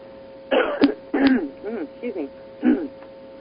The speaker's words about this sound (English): don't you hate it when you take your breath to say something and breathe, swallow wrong in the process and start choking?